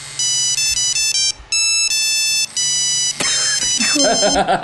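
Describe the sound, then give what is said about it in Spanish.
A mobile phone ringing with a loud melody of bright, electronic beeping tones in short repeated bursts, then turning muffled and rough for the last second or so. No voices are heard. “Vamos a mostrar cuál es el efecto vibrador del que hablábamos tapando el microfonito del celular.”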